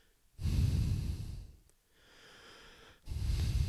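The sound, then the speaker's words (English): A person imitates heavy, labored breathing with loud, raspy breaths: a long strong breath, a quieter, thinner one, then another strong breath. “why my breath was so heavy and labored. Every time Kirk was trying to talk, you just heard me going,”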